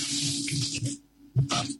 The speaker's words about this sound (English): Hey, why is the water going on and off like this?